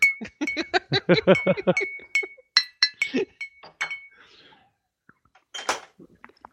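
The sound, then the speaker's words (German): Glasses clink together in a toast: a quick run of many bright, ringing chinks in the first two seconds, then sparser clinks, a pause, and one last bright clink. “jetzt können wir anstoßen. Prost.”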